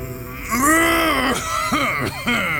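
A man clears his throat in a few rough, voiced bursts: a drawn-out throaty rasp, then shorter harsh hacks, all fairly loud.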